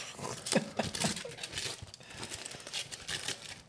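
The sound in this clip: Plastic foil crinkles as a tightly wrapped package is unwrapped, with irregular rustling bursts that swell and fade at a moderate level.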